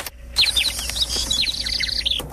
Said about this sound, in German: fühlen, als würde ein Rotkehlchen auf ihrer Schulter singen